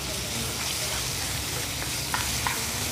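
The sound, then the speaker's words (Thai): Chili paste sizzles as it is stir-fried in a pan, a steady dense hiss throughout with a couple of light scraping clicks near the end. “ตอนนี้ละผัดละฮะผัดนี่เราเก็บไปได้นานเลย”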